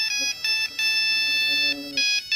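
A mobile phone ringtone set to Dancing Queen plays bright, clear electronic tones in short melodic bursts separated by brief gaps. It is loud and heard alone.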